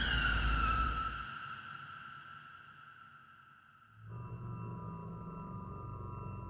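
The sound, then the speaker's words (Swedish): A car brakes to a stop on a country road: a loud skidding squeal opens with a high tone sliding slightly downward, then fades over a few seconds before a steady low rumble takes over. “De stannar bilen och Walton kliver ut.”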